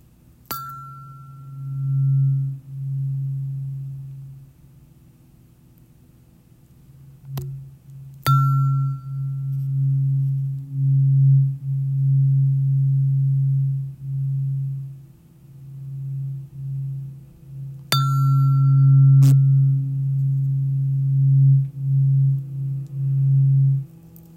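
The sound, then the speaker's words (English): Heart chakra frequency tone played alone as a steady, low, pure hum that swells and dips in loudness over about twenty-four seconds. A few brief, sharp pings and clicks break in at scattered moments. “Okay, I just played the heart chakra.”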